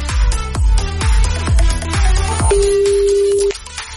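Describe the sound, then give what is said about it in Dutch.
A ringback tone plays as a phone call is placed: one steady mid-pitched tone lasting about a second, heard over a pulsing, evenly spaced rhythmic beat. “Dus we gaan even iemand bellen die Spier heet.”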